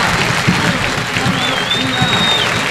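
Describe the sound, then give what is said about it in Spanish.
A football crowd applauds a substituted player during a league match, with broad, steady clapping and crowd noise that holds level throughout, under a commentator's voice. “Se va aplaudido también Brandán”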